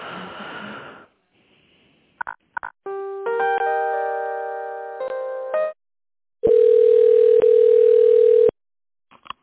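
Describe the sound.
Telephone line tones heard while an office call is transferred to the chief accountant: a few short clicks and beeps, a stretch of layered steady tones, then one long, loud, even ringing tone.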